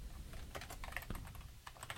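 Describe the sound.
Typing on a computer keyboard: many quick, soft keystrokes in an uneven, steady patter, quiet and with no talk over it.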